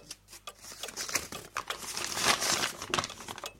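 A paper letter rustles and crinkles as it is handled, with quiet, irregular bursts of crisp paper noise coming one after another.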